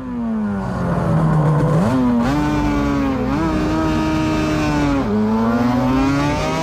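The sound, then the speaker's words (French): Racing motorcycles roar off the line at a race start, loud engines revving hard and continuously, their pitch climbing and then dropping back in a few distinct steps as the riders shift through the gears. “Je prends un excellent départ et passe trois pilotes au démarrage. La différence, je dois la faire tout de suite pour ne pas être bloqué dans le peloton des poursuivants. À l'approche du premier virage, les motos s'affaissent pour prendre la meilleure trajectoire possible.”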